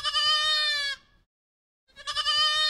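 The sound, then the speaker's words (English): A baby goat bleating: two loud, high, quavering bleats rich in harmonics, the first lasting about a second, then a short silence before the second begins. “Today's Name That Sound is a baby goat.”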